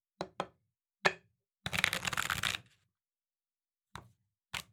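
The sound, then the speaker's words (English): Tarot cards being shuffled and one pulled: three sharp taps, then a dense papery riffle lasting about a second, followed by two more crisp taps. “So today, I'm going to be talking through some of my favorites, but before we do, let's pull our tarot.”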